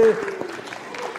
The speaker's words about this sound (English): can I get a hand from the parents that are excited to get the kids back to school?